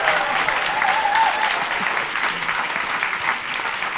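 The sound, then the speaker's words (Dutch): Audience applause follows the reading of a humorous poem about a pig. A broad, steady crowd of clapping hands keeps a constant level from start to finish. “En aan het applaus te horen is iedereen het er wel mee eens dat dit een favoriet moet zijn”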